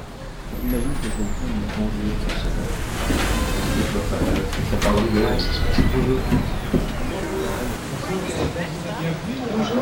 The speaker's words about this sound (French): Fragment sonore numéro 1. On entend la mer.